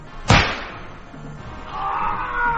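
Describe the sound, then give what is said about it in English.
A single sharp rifle shot from a staged frontier battle cracks out loudly near the start, then gives way to a low, steady rushing noise that swells slightly toward the end. “The smoke clears. The final shots ring out. Smell of burnt powder drifts away on the wind.”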